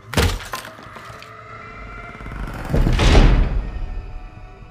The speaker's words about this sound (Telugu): door పెద్ద శబ్దం చేస్తూ ఓపెన్ అయింది